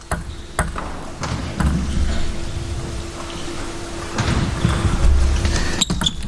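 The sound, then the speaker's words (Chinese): Sharp plastic clicks of a table tennis ball during a match point where the serve clips the net. A few crisp taps sound over a steady background, ending with a louder crack. “换了一个逆侧，但是发球擦网。 看看擦网之后的这个球是会选择同样的落点，还是会有改变。”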